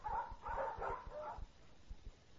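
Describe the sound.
Dogs yipping and whimpering in a pet shop, a few short, high-pitched cries in quick succession, fairly faint, then dying away.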